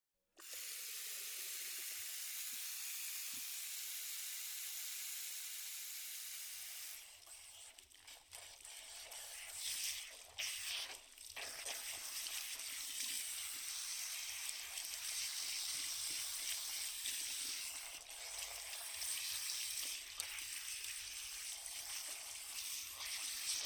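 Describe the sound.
Water sprays steadily as hair is rinsed at a salon shampoo basin. The hiss is broad and continuous, changes character partway through, and carries on without talk.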